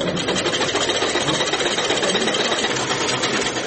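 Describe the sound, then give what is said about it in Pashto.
Sewing machines run in a tailoring workshop where only a few machines are still working, making a steady, continuous mechanical whir and hum with fine rapid ticking throughout and no talk. “په دې خیاطي کارخونه کې چې یو وخت ګڼ شمېر ماشینونه چلېدل اوس یوازې څو محدود ماشینونه فعال دي.”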